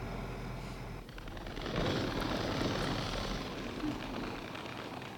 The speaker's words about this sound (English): Bombers airborne.